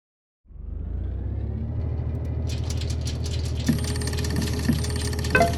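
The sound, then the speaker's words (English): A machine playing the part of a random number generator starts abruptly after a brief silence, then runs as a steady low mechanical rumble with rattling and a few sharper clicks, and no voices. “So, I will now run the random number generator.”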